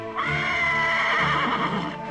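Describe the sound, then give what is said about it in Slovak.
A frightened horse whinnying in one long, loud, quavering neigh that holds for about two seconds before fading, heard alone. “Čo je, koník môj? Čo si taký vyplašený?”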